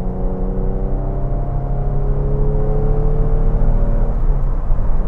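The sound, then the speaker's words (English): A car accelerates up to highway speed on flat-spotted tires, its engine drone steady and continuous, with harmonics climbing gradually in pitch throughout. “Okay, so here we go, up to highway speed.”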